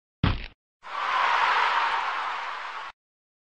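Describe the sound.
A ball is kicked during a game: a single sharp thud, then a long, even whoosh lasting about two seconds.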